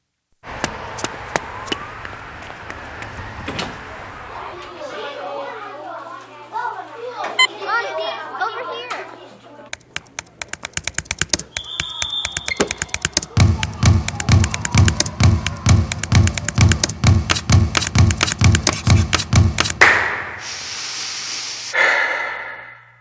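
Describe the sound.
Children at an after-school Boys and Girls Club chatter, shout and play, with scattered thumps and taps, then a rapid run of many steady rhythmic thuds before the noise swells at the end.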